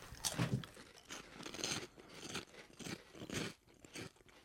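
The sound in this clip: Crunching of flaming hot Funyun snacks being bitten and chewed: many sharp, dry crackling bursts in an uneven rhythm, with no talking over them.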